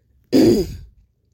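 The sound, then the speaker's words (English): A man clears his throat once in a single short, rough burst that fades into near silence. “He clears his throat.”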